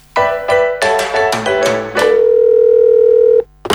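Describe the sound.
A telephone dial tone while a call is placed to a listener: a few struck tonal notes give way to a long, steady, loud hum lasting over a second, which cuts off abruptly before a brief final tone.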